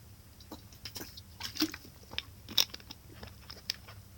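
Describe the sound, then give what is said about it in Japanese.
Wet gulping and swallowing of a person drinking water just after waking, a few faint, irregular clicky mouth sounds with two slightly louder ones in the middle, and no talking. “ちょっと一回、すいません。あの、水分補給しますね。あの、ちょっと口パサパサなんでごめんなさい。”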